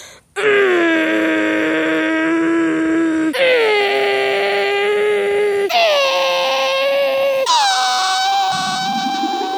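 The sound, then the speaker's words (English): A voice imitates a teleporting noise with four sustained, wavering vocal tones, each stepping higher in pitch than the last, loud and continuous without breaks. “And I'm gonna make my teleporting noise.”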